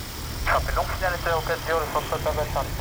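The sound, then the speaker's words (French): Steady low engine drone from a light aircraft flying low, about five to six metres, along a grass runway, running under a voice talking throughout. “Donc on avance, on est en train de survoler la piste en herbe à 5-6 mètres.”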